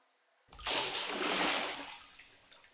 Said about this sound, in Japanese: 左腕もくまなく洗ったから、これで終わり。 はい、じゃあ流すよ。